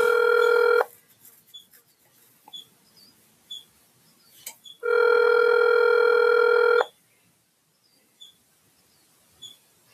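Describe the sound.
Ringing tone of an outgoing phone call: two long, steady, buzzing tones, the first cut short at the start and the second lasting about two seconds, separated by near-silence with faint scattered clicks.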